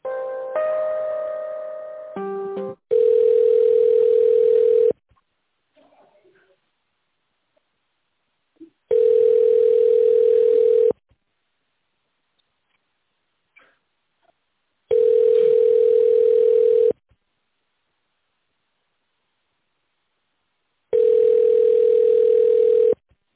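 A telephone ringback tone sounds while an office call is being transferred: four steady mid-pitched tones, each about two seconds long and separated by even silences, after a brief cluster of line beeps at the start.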